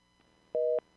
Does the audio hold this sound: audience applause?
no